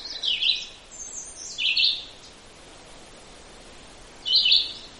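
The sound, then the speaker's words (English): A red-eyed vireo sings three short, high phrases, each brief and separated by pauses, fairly faint over a steady hiss of background noise. “This is a red-eyed vireo, and I did record a Philadelphia vireo, so maybe you can compare this.”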